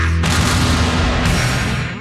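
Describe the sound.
Cannon fire for a rock stadium concert in Ohio: one loud, heavy blast whose rumbling roar fills about two seconds and then tails off.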